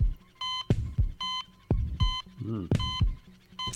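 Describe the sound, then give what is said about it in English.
Electronic beeps from a wrestler's entrance theme come in several short, steady bursts at an even pitch, separated by brief gaps, while people talk between and over them. “I couldn't help myself when I heard the beeps.”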